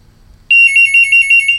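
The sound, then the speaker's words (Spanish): An electronic telephone ringtone for an incoming call starts abruptly as a loud, high-pitched warbling trill with rapid, regular pulses, heard alone over a faint low hum. “Hay llamada telefónica”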